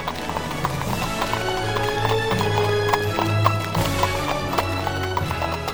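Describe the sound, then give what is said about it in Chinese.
Rapid hooves clip-clop without pause as a horse-drawn carriage races along, a many-beat galloping rhythm that stays fairly loud and steady. “马车依然疾驶着。”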